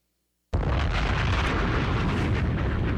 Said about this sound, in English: I'm confused about these bombs. That's what's called a segue moment.